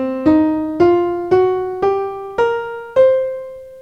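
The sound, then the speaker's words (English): Piano notes climb the C blues scale: six clear, evenly spaced notes ascend one after another, each struck firmly and left to ring briefly before the next, played alone with no talking. “So to refresh your memory on the blues scale, we have the notes C, E flat, F, F sharp, G, B flat, and C. So again, sounds like this.”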